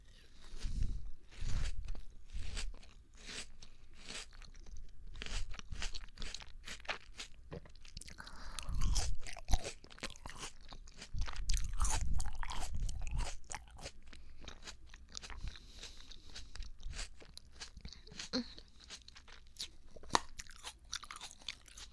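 Someone bites into and chews a small sweet melon, making many crisp, wet crunches in irregular bursts. Quieter chewing fills the gaps, with louder clusters of bites scattered throughout.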